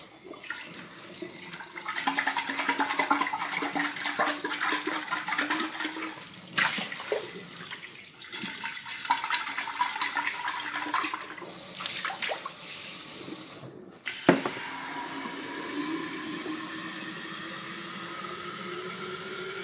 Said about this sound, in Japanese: 洗い物とかしてるとだんだんすごい集中が増してきて喋りながら洗うのは結構難しいなっていうことに気づきました。